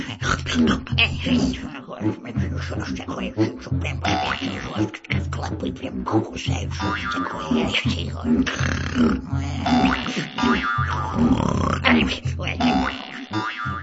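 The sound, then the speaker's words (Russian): An old woman snoring in a fairy-tale audiobook, with repeated rasping, grunting snores in a steady rhythm mixed with a voice throughout. “Тьфу! Сказала старуха, повернулась к стене и захрапела.”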